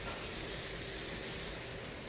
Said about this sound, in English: Okay, it is sizzling. Oh, that smells so good.